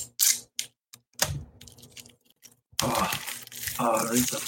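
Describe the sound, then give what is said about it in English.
Plastic wrapping on a Pokemon trading card pack is torn open in a long, loud, crinkly rip that follows a few sharp clicks and rustles, with people talking around it. “Rip it like you would undress a woman. That smells good. Smells like Pokemon cards. Oh, smell it. Smell it. Rub that plastic in your nose.”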